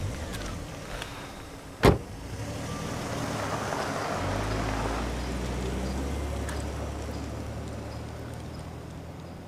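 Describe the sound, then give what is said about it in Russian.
A car driving away: a single sharp knock sounds early, then a low engine rumble swells and holds steady to the end. “Девушки садятся в машину и уезжают.”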